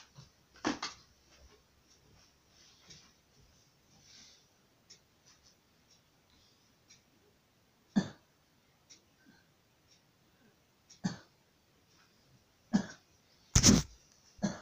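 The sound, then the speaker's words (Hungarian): A person coughs while struggling for breath and forcing out each cough. A few faint, scattered coughs break a quiet background, with the strongest bursts near the end. “Ne köhögj, minek köhögsz? Nincs értelme neki.”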